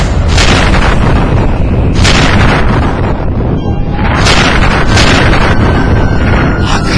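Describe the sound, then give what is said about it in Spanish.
A sci-fi proton ray is fired at a gate as several loud, explosive booming blasts over a constant roaring rumble, heavy and distorted, with no voices. “¡Activa el rayo de protones! ¡Dispara al portón!”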